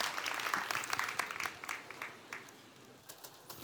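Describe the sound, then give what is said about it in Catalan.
An audience applauds at a festival proclamation ceremony. The clapping is dense and fairly loud, thinning slightly toward the end. “L'aplauso, nen, aplauso. Molt bé.”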